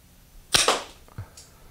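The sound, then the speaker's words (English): Two shots from a trigger-charged non-lethal self-defense launcher fired downrange at a target: a loud, sharp pop with a hissing burst, then a second, quieter and duller pop. “We're going to pull the trigger to charge it, and we're going to take our shots at it.”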